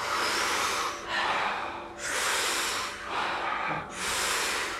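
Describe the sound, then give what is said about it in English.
Deep, rhythmic breathing in a breathing exercise: big inhales alternate with relaxed exhales in about five long, loud, breathy strokes with short dips between them. “So really big breath, make sure that the chest, the lungs, the belly, the whole torso is expanding. And when you exhale, try to relax the whole body. We do it rhythmically, we do it together. It sounds like this.”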